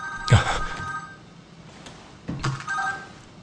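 A telephone rings twice as someone places a call. Two separate ringing bursts are divided by a pause of about two seconds, with a warbling electronic tone.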